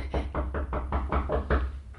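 Knocking on a door: a rapid, steady run of evenly spaced dull thuds over a low, constant hum.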